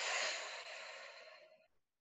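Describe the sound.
A slow, deep breath during a guided breathing exercise, heard as one long, airy, hissing rush of air that holds steady and then gradually fades to silence, with no talking.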